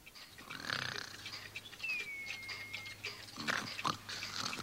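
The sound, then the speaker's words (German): Faint snoring from someone asleep in a drawer: a few soft breathy snores, one carrying a thin high whistle, over a low steady hum. “Was schnarcht einer? Kann das vielleicht aus einer Wohnung nebenan kommen?”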